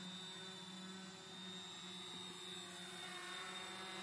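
A homemade remote-controlled flying device, a heavy machine on its first flight in a light wind, gives a steady high motor whine over a low hum with no talk.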